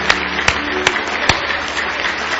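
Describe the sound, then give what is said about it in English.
A church audience claps in praise during a service: four sharp, roughly evenly spaced claps stand out over a bed of scattered, continuous clapping. “Why don't you give him one more hand clap of praise if you love him tonight?”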